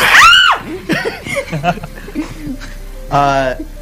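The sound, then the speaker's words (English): A person lets out a short, piercing high-pitched scream that arcs up and falls away, followed by several people talking over one another. “And that was an actual scream.”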